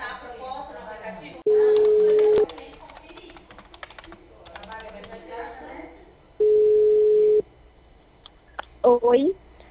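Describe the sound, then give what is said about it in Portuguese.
Two long, steady beeps of a telephone busy tone after a dropped call, each held for about a second, with a person talking between and after them. “A ligação caiu.”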